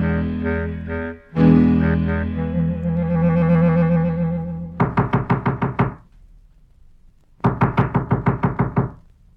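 Knocking on a grandmother's door: after a sustained tonal musical passage, two quick, loud runs of several sharp raps each are separated by a brief pause.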